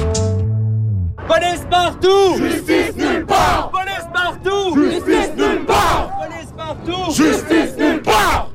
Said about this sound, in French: Ce que vous entendez, c'est ce qui s'est passé hier soir dans les rues de Montréal, un rassemblement, une manifestation.